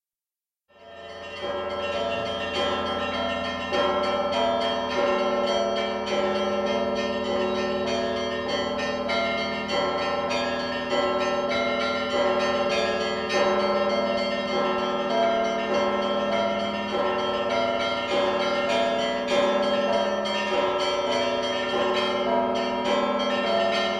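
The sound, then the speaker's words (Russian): Church bells ring a festive peal across Moscow, a loud, dense and continuous clangour of many bells striking in a rolling rhythm that rings on alone without pause. “Трезвон красный! Всем колоколам звонить!”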